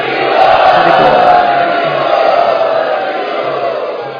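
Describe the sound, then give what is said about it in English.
A crowd chants loudly to welcome first-time students at a gathering, a dense, sustained roar of many voices that eases slightly toward the end. “And let us welcome all of these students who have come for the first time by very loudly chanting.”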